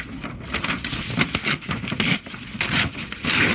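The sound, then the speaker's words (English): Paper tearing as a magazine article is ripped out: a rapid series of rough, crackling rips and scrapes in short uneven bursts, fairly loud and with no talk over it. “Yes, I am ripping out the article.”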